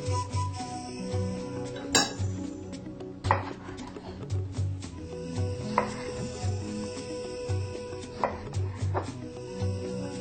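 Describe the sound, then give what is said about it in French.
Knife chopping tomatoes into small pieces, heard as a few irregular, sharp strikes against a board, set over steady background music. “nous allons commencer par couper ces ingrédients en tout petits morceaux. Voilà, je prends la tomate.”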